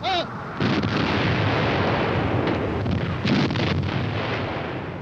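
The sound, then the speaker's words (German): A heavy German artillery barrage at Verdun, including Krupp Big Bertha guns, makes a dense, continuous rumbling roar of overlapping blasts. It stays loud and sustained throughout, with a few sharper surges. “1200 deutsche Geschütze aus allen Rohren, darunter 12 dicke Berthas aus den Essener Kruppwerken.”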